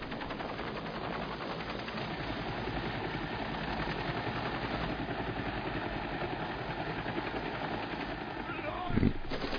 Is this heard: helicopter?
yes